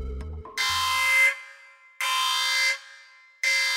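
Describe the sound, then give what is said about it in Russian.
A harsh warning alarm for a new unregistered signature blares in three loud, shrill bursts separated by short gaps. The third burst is cut off at the end, and a few low knocks come before the first. “Сигнал предупреждения резанул по ушам. Звук «новая незарегистрированная сигнатура» Дофу и Ю специально подбирали как можно более резким и пробирающим.”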